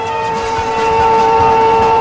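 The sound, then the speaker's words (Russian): A steam train pulls into a station platform amid thick steam, heard as a steady tonal drone with a low rumbling bed that grows slightly louder partway through. “Окутывая перрон густым паром, прибывает поезд.”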